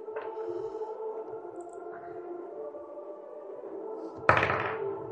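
A die rolled during a tabletop game knocks against the side of a dice tray: one sharp, fairly loud knock near the end over a steady low hum.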